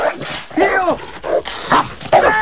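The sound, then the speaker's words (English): A dog gives several sharp barks and higher yips, some with bending pitch, while chasing someone back and forth across a backyard. The bursts are uneven and fairly loud. “The dog chases him back and forth across the backyard.”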